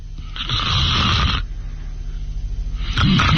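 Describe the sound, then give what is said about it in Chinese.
A voice imitates snoring, as of someone asleep leaning back in a chair: a long, loud rasping inhale snore, then a fluttering lower exhale, and the start of another snore. “他一看窦尔敦靠着椅子把眼闭上呼噜出来”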